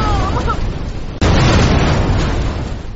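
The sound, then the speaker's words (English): Flames burst out as a witch's body catches fire in a cave of ice. A sudden loud whoosh strikes about a second in, then a broad, roaring rush carries on and slowly fades. “Flames shot out of Maria's eyes, ears, and mouth just before her body caught fire.”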